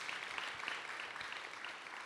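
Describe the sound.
Faint, steady applause from a gathered audience welcomes a speaker. It is a continuous, even patter of many hands with no pause.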